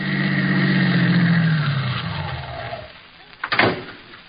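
A car driving up, staged as a radio drama sound effect: an engine hum slides down in pitch as it slows and fades, then a few short clunks land near the end.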